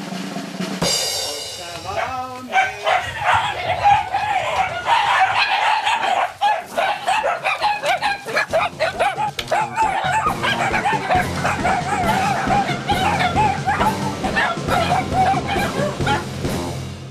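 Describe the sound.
Many dogs vocalizing and 'talking' together, a pack of around sixteen trained to chatter, form a dense, unbroken chorus of high yowling, whining and barking calls that overlap with no pauses.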